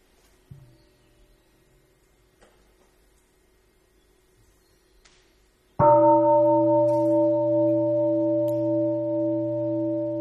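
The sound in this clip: A single struck mindfulness bell sounds after near silence during a meditation talk, a loud, sudden ring that settles into a long, steady tone with rich overtones sustained to the end.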